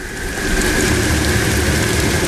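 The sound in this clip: Rain starts to fall at night: a broad, steady hiss of falling drops that rises over the first half second, then stays even and constant.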